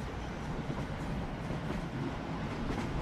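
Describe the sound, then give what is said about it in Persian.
Inside a moving passenger train: a steady low rumble with faint rattling clatter runs evenly throughout, with no voices heard. “بشینین، ساکت باشین. بشینین، لو میریم. بشین. داخل قطار.”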